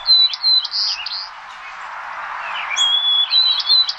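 Recorded bird song of clear, high whistled chirps in short repeated phrases. A quieter stretch mid-clip is followed by the phrases resuming, with no voices.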